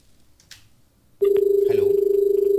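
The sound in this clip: A telephone rings with an incoming call. After a nearly silent start, a loud, steady electronic ringing tone cuts in abruptly and pulses rapidly without a break.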